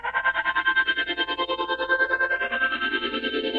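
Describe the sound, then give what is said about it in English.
Synthesizer tone with a phasing effect made by frequency shifters set to roughly a 50% mix, pulsing rapidly and evenly while its bright overtones slowly sweep and shift, alone with no voices. “Oh yeah, so I'm also using frequency shifters, 50% approximately, and that is to create that phasing effect.”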